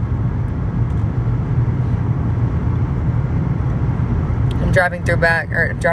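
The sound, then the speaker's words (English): A car driving on a road through Montana gives a steady low engine and road rumble that holds throughout, and a voice starts speaking over it near the end. “I'm driving back through Montana right now”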